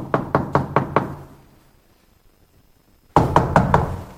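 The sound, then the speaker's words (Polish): Knuckles rap on the door of a flat in two bursts of several quick, firm knocks, separated by a pause of near silence. “Zapukajmy najpierw do pana. Zobaczmy, czy otworzy nam drzwi.”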